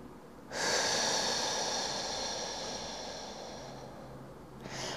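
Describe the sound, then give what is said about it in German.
Slow breathing in through the nose and out through the mouth: a loud, airy rush of breath that fades gradually over several seconds, with the next breath starting at the end. No talk. “Durch die Nase ein. Und lässt den Atem durch den Mund hinausfließen. Wieder ein.”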